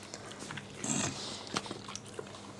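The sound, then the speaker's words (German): A Great Dane in an office makes faint snuffling, snorting and chewing-like sounds, soft and irregular against a low, steady background. “Immer im Büro, die tierische Unterstützung. Susi, setz dich hin. Mach Platz.”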